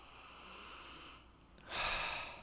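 Sniffing at a drink, then an exhale: faint steady hiss gives way to a soft, breathy rush of air that swells near the end.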